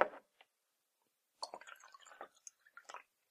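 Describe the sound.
A drink is poured into a cup: faint, irregular glugs and small splashes cluster in a short burst after a couple of isolated tiny clicks, quiet and without talk.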